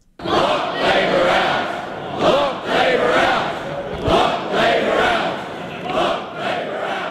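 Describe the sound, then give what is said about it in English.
ACT Party supporters chant the party's battle cry at a political rally that opens an election campaign. Many voices shout together in loud, rhythmic surges that repeat throughout. “That's the sound of the ACT Party faithful chanting the party's battle cry for the upcoming election.”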